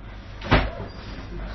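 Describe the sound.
A door swings open with one short, solid clunk that fades quickly, set against a steady low background hum with no other distinct sounds.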